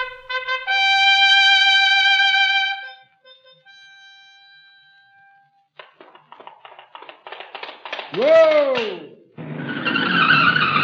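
Car skidding under hard braking: a loud screech that falls sharply in pitch, after steady tones and a stretch of rattling, then a harsh noisy hiss to the end.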